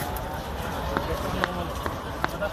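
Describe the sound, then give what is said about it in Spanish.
Footsteps of crowds of volunteers walking to help in flood-devastated Valencia, a few soft, steady steps under a murmur of voices and background bustle. “El de oleadas de gente acudiendo a caminar durante kilómetros para ayudar en las zonas devastadas.”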